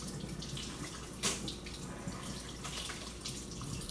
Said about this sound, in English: To rinse off my hands again.